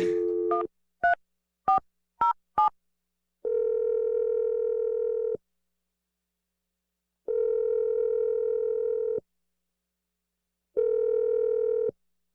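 Touch-tone keypad beeps of a telephone being dialed: a quick run of short tones, then three long, steady ringback tones separated by even pauses. The sounds are clear and stand alone, with no voices.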